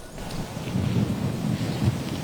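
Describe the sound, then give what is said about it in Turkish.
Rain falls steadily on a rainy, windy day in Istanbul, a continuous broad hiss over a deep, rumbling low layer that swells slightly without letting up. “Yağmurlu ve rüzgarlı bir İstanbul gününde meteorolojiye ilişkin detaylar onlarda.”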